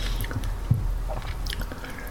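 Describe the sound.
Chewing and biting on food during a meal: faint, soft mouth sounds with one sharper bite early on.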